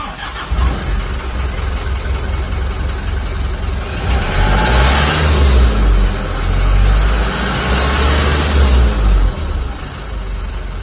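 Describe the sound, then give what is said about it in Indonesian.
Rough-sounding engine revving after a repair, from a unit that before would only idle and not rev; a steady loud rumble swells into stronger revving through the middle, then settles back. “Mantap teman, sudah mau digas. Nampakan cuman suaranya saja yang kasar teman.”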